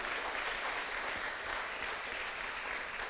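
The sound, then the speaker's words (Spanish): Church audience applause following a call to praise God: a continuous, dense wash of many hands clapping, fairly faint and even throughout. “Denle un fuerte aplauso al que vive por los siglos de los siglos.”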